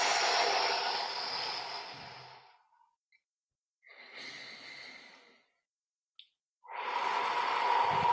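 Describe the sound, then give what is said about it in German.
Deep, slow breathing during a relaxation exercise: three long, airy breaths separated by quiet pauses, fairly loud and heard alone, with a tiny click between the last two. “Genießt noch ein, zwei tiefe Atemzüge, das alles abfließen zu lassen.”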